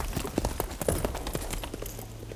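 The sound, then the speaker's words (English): Hooves of a horse galloping away through scrubby bushes about 25 miles from London: a brief, quiet run of quick, uneven hoofbeats over soft ground. “Nix, is watching his most recent victim gallop away through the scrubby bushes”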